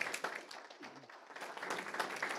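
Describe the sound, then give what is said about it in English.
Audience applause rises into a quick round of steady clapping that builds and holds as a dense, even patter, with a little talk heard near the start. “Just a quick round of applause for him, I think, is appropriate.”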